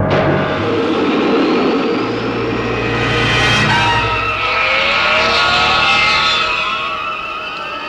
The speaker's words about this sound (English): Pressing that bubble causes the rockets to fire.